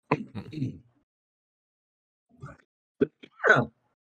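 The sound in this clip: A few short, sharp coughs and throat-clearing bursts, separated by silence, from someone with a nutshell caught in the throat after eating nuts.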